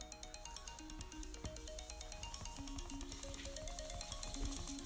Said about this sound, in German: Sorry, das ist gerade Nachricht von jemandem. Ich habe gerade eine Nachricht bekommen.